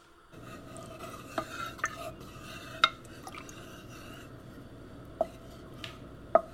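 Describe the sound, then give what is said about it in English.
Cooking in a kitchen: a utensil stirs a pot, with several sharp metallic clinks and taps scattered over a quiet, steady background. “Just until mommy's all done cooking.”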